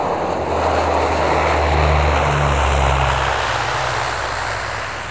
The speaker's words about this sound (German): Wir landen in wenigen Minuten.